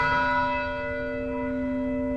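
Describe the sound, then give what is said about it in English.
A single stroke of a memorial bell on a university campus, a rich ringing tone with layered overtones that hangs and slowly fades, heard alone. “This morning in Blacksburg, Virginia, a bell rang out at 9:45.”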